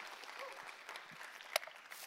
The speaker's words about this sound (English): Come on, can we put our hands together and welcome everybody that's watching?